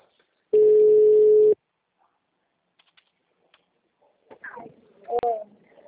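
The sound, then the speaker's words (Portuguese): After a phone call drops, one steady, loud telephone tone plays for about a second, then come faint clicks and a brief snatch of speech. “Sai da ligação. Caiu.”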